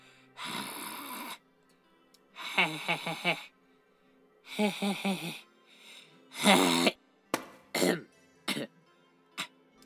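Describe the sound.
A person coughs and hacks as if bringing up a hairball, set off by an allergy to cat hair. Several harsh, gravelly retching bursts come first, followed by a few shorter, sharper coughs, heard on their own.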